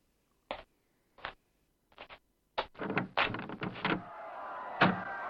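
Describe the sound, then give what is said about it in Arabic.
A small window hatch being opened: a few sharp, separate knocks, then a quick burst of clattering clunks, followed by a lingering, louder wash of noise. “افتح الكوة وانظر إلى الخارج.”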